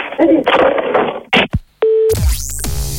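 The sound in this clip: A telephone handset is hung up after a voice speaks, with a couple of dull clunks. One short, steady electronic tone follows, then a burst of loud, rough noise.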